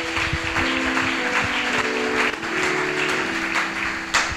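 Applause from a church audience at a youth gathering: a dense, steady wash of clapping that holds at an even level throughout, with a few brief louder swells.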